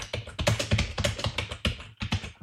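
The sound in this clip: Quick keystrokes clatter on a computer keyboard as a request is typed into Claude's input field: many soft, rapid taps in an uneven rhythm, with a brief pause near the end before a few more keys.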